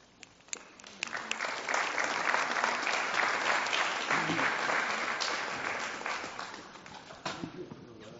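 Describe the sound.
Audience applause welcoming two speakers on a Yom Kippur afternoon: dense, steady clapping swells quickly, holds loud and even for several seconds, then thins out toward the end.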